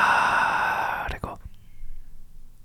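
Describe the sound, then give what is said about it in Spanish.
A long, airy exhale during a calming breathing exercise, a steady breathy rush lasting about a second that cuts off abruptly, followed by near quiet with a few faint soft sounds. “Pocas cosas son tan efectivas como exhalar en dos tiempos e inhalar en uno. O sea, inhalo y exhalo”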